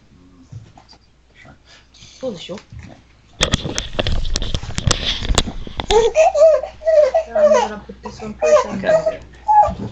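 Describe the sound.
A baby girl fusses and babbles in a run of whiny, high-pitched vocal bursts that rise and fall, with some adult talk earlier on.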